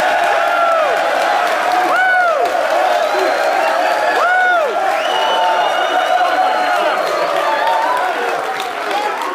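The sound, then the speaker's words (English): A live studio audience cheers on the University of Tennessee campus in Knoxville, with the football team present: a loud, sustained roar of crowd noise, clapping, and repeated high whoops and shouts throughout. “this is a live studio audience!”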